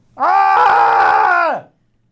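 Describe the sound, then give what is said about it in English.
A voice imitates a hockey player screaming like a maniac to intimidate an opponent: a single loud, sustained, harmonic yell lasting about a second and a half before trailing off. “Bulldog screaming like a maniac just to try to intimidate and force the puck up the boards.”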